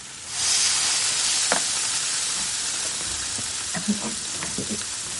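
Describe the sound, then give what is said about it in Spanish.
Gyoza sizzle in a frying pan after water is added. A sudden loud burst of steamy hiss settles into a steady, crackling sizzle, with a few faint clinks and taps scattered through it. “Estos son giozas. Ah, las pone en la sartén y añade agua.”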